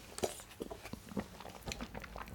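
Cashew nuts being chewed: quiet, crisp crunches and bites come in an uneven rhythm, several in close succession.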